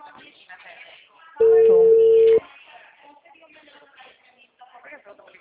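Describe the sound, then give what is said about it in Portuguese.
A telephone tone sounds as a call is placed again: one loud, steady electronic tone lasting about a second, with people talking before and after it. “Voltei a ligação aqui.”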